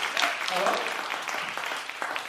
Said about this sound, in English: So a round of applause for that, please.